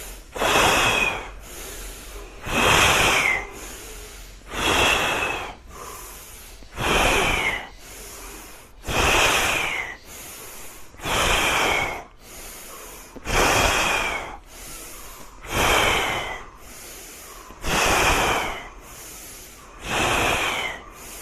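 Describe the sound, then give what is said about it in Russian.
Forceful exhalations of a candle-blowing breathing exercise, short breathy blasts repeating at a steady pace of about one every two seconds throughout, with no talking. “Чуть побыстрее. Задувание свечи. Вдох.”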